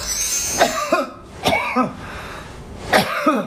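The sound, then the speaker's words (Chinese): Short, clear coughs from a person with a cold-phlegm cough come as three brief, loud bursts, each with a voiced tail, separated by pauses, with no talking. “这是听声音哈， 听声音，这是咳嗽的声音，它会有特色。”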